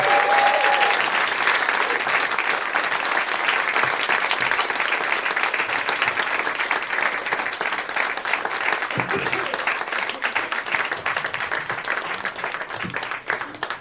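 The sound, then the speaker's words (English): An audience applauds as three guests are welcomed onto a stage, a thick, steady clapping that keeps up its loudness for most of its length before easing slightly toward the end. “Please help me in welcoming to stage my friends David Huntsberger, Brendon Walsh, and Rory Scovel.”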